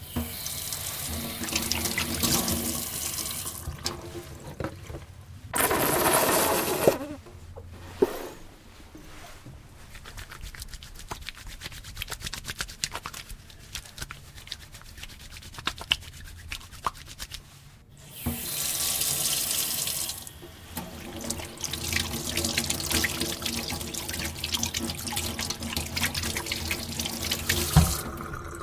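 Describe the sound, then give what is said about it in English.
Water streams from a running tap into a sink as someone washes their hands, a steady splashing flow that is broken by a few brief changes and pauses, with no voices. “That's the sound of somebody washing their hands.”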